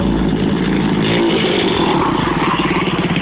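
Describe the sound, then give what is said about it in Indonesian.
A motorcycle taxi's engine runs with a rough, throbbing, pulsing drone that stays loud and continuous throughout, with no voices. “Helm standar sing cumentel ing setir sepeda motor gelis dinggu banjur agi-agi nyetater kendaraan.”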